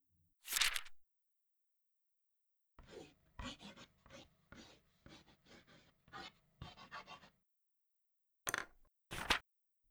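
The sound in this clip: Pen strokes of a quick sketch of a bikini design, heard as quiet, scratchy rubbing: one opening burst, then a run of many short strokes, a pause, and two final swipes.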